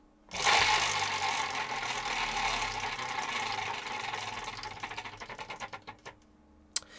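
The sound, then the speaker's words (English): A prize wheel is spun, giving a broad whirring rush that slowly fades. It breaks into a string of clicks that space out as the wheel slows, ending with one last louder tick. “Shall I spin the wheel? You should.”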